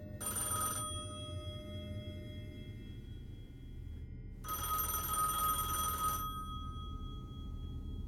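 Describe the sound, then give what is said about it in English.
A telephone rings twice, first as a short electronic ring burst and then, after a pause, as a longer one, both quiet over a low background rumble. “Giuseppe glances down at the caller ID. One of his mother's friends is calling. He nervously picks up the phone and says, hello.”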